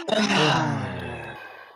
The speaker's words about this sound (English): Big deep breath in. Exhale out your mouth.